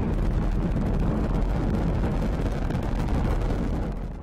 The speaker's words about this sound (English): Thomas Pesquet and 3 others were aboard the 3rd SpaceX launch with humans. The launch was delayed one day because of Florida weather, but the crew was able to lift off early Friday morning.